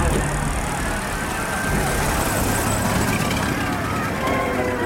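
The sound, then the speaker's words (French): A small Renault automobile drives across a bridge at night, giving a steady, unbroken rumble of engine and road noise that holds an even level throughout. “Il est minuit passé lorsqu'une petite automobile Renault traverse le pont d'Argenteuil.”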